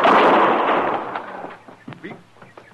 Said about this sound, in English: You shot him. Of course I shot him.